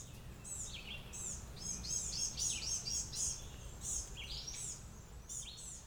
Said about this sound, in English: Part of me wants to say that's what all those excited calls are about. They want the natural area. But five gnatcatchers moving among small trees and big rocks